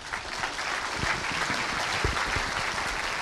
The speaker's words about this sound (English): Would you welcome Frank Turek, please?